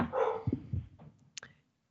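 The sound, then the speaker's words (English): A dog barks at home, giving a few short, sharp barks of moderate loudness spread over a second or so, then falls silent. “And sorry about that. My dog is barking.”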